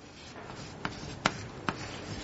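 Handwriting as a curve is set down point by point: soft, steady scratching with three sharp taps of the writing tool, faint and without talk.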